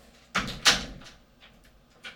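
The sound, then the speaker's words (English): A door swings shut with two solid thuds, then a few faint, sharp clicks follow as it is locked. “Close the door and lock it.”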